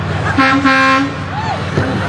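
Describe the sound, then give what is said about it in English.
A Kenwood truck horn gives one brief, blaring honk lasting about half a second, followed by quieter background sounds. “you guys go, or you get run over by that Kenwood truck”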